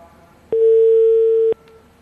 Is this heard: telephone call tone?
yes